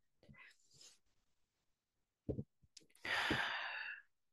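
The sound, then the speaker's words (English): Deep breathing during a guided relaxation exercise: a soft, airy inhale, a pause with a few small breath noises, then a longer and louder breathy exhale, all faint and without talk. “take a few deep breaths. Okay. Take a few deep breaths with me.”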